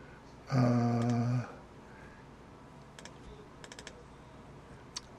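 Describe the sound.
A few faint keystrokes on a computer keyboard, sparse and spread out, follow a loud, brief harmonic tone near the start.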